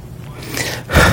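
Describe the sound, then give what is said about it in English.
A deep breath is taken during a sermon: a drawn-in inhale builds over most of a second, then gives way to a louder, breathy exhale. “There's my deep breath.”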